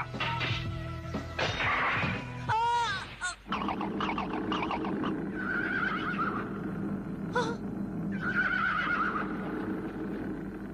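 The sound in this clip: A horse neighs in an animated cartoon, giving a few loud, wavering whinnies over a busy background that includes other animal calls.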